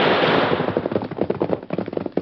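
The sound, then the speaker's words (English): Gunfire from an ambush on a ridge above a canyon: a loud blast of sharp cracks at the start, then a rapid, rattling series of shots that thins out, with no talk. “We think them shoot from ridge. Up there.”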